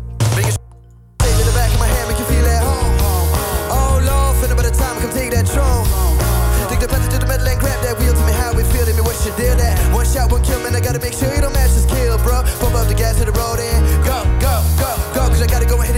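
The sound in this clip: A band plays its single live in a session on the Dutch radio station 3FM, loud and dense full-band music with a steady driving beat, after a brief quieter dip near the start.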